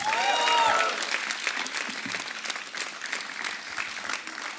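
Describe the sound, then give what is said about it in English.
Audience applause for a band at the end of its performance: dense, steady clapping that starts loudest with a short cheer, then continues at a slightly lower, even level throughout. “A big round of applause for them again.”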